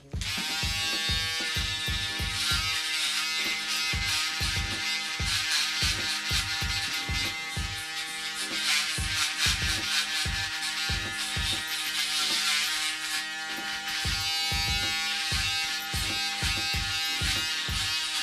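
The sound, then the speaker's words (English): Electric hair clippers trimming hair give a steady, loud buzzing drone with a rapid pulsing rhythm that continues alone for the whole stretch, its intensity wavering slightly as the blades move through the hair. “So we're just going to test it, see how it goes. Yeah, excuse the clipper noises, people.”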